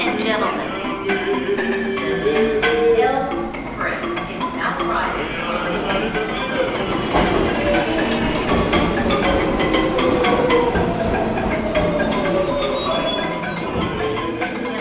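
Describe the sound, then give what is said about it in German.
A crowded New York subway train runs late at night, its steady loud rumble layered with squealing wheel tones and the clatter of the cars, while indistinct passenger voices murmur throughout. “Der Zug, in dem ich stehe, ist trotzdem voll.”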